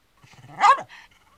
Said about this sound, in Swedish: Det är hans nya hund som skäller.